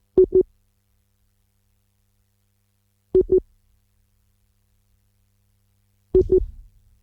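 Busy tone of a failed Viber call: three short double-beep bursts at a steady mid pitch, spaced evenly about three seconds apart with silence between them.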